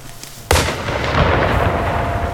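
A single rifle shot, fired by a 13-year-old on his first hunt, cracks out sharp and loud after a quiet stretch, then leaves a long rumbling tail that lingers to the end.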